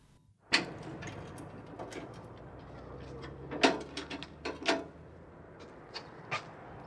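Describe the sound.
A metal mailbox being opened gives a few sharp, quiet clicks and light rattles, spaced out over a low steady background hiss.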